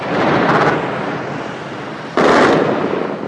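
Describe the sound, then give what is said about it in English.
Archival recording of the 2003 nighttime shock and awe bombing of Baghdad: two heavy blasts, each swelling into a loud, sustained roaring rumble. “The invasion would begin on March 20, 2003, along with the nighttime shock and awe bombing of Baghdad.”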